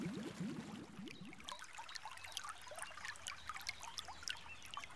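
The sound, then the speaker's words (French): Water trickles at the filter basin of the Grand Parc Canal in Toulouse, a wooded, landscaped site, giving a faint, steady babble of many small drips and splashes that continues throughout. “Le Grand Parc Canal, un projet de Toulouse Métropole, présente les plongées sonores du bassin des filtres.”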